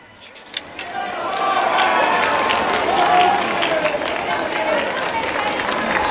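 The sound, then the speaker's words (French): A crowd applauds and shouts for the pope. After a quieter opening second, dense clapping swells and holds steady, with shouting voices mixed through it. “Ils applaudissent et crient « Vive le pape !»”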